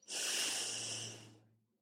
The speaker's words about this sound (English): Breathe in deeply. Breathe out fully.